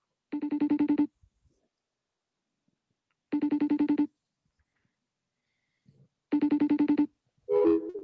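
A phone rings on an outgoing call. Three even ring bursts, each under a second long, repeat about three seconds apart with quiet gaps between them.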